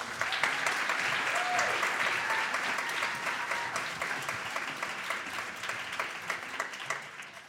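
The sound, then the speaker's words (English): Audience applause welcomes a speaker onto the stage at a talk event: dense, steady clapping fills the whole stretch, thinning slightly toward the end. “Will you please give a warm welcome for Lindsay Tjepkema?”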